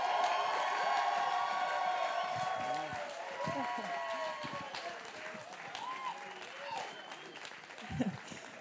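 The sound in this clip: Church audience applauding as a speaker is welcomed up to the stage, a steady clapping that gradually thins, with voices talking over it.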